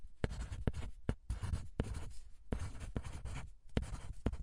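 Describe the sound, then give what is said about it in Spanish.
A pen scratches across paper while a map of Mesopotamia is drawn: many quick, scratchy strokes broken by sharp taps as the pen lifts and lands, steady and fairly quiet. “Ok, ¿me podrías dibujar este mapa? Vale, lo intentaré.”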